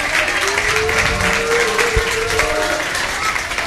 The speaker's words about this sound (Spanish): Gracias. Un aplauso.